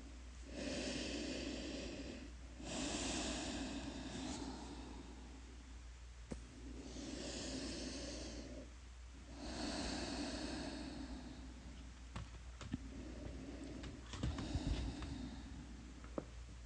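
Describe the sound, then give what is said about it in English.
Slow, deep breathing during a guided breathing exercise: a few long, airy inhale and exhale cycles with soft rushing breath noise and short pauses between them. “Let's take a couple deep breaths together.”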